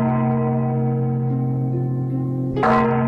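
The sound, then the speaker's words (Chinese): A large temple bell rings with a loud, sustained low hum and many steady overtones. Near the end a short noisy strike renews the tone. “只听见寺内的大钟响了十声”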